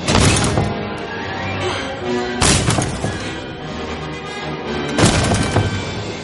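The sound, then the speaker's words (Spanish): Someone pounds on a door: three heavy, booming blows spaced a couple of seconds apart, each with a loud crashing attack that rings out and fades before the next. “Alguien golpea la puerta.”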